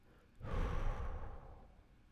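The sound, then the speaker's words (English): A long, complete exhale during a guided breathing meditation swells quickly into a soft, airy rush of breath, then slowly fades over about a second and a half, with no talk. “close our eyes and exhale your breath completely.”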